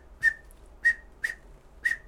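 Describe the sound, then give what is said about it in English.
A person whistles an imitation of the blue quail's chukar call from West Texas hills: four sharp, bright chirps that start high and drop quickly, evenly spaced and loud, with silence between them. “But if you've ever chased blue quail across those hard scrabble hills in West Texas, the sound you hear them make occasionally is called the chukar call.”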